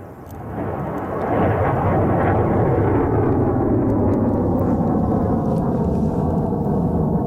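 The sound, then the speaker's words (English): A suborbital hypersonic rocket launches from a coastal spaceport in Canso, Nova Scotia: a deep rumbling roar builds within the first second, then holds loud and sustained, rich in low frequencies, with no voices. “That's the sound of this morning's rocket launch in Canso, Nova Scotia, the first of two suborbital hypersonic rockets to launch from the spaceport in the small coastal community.”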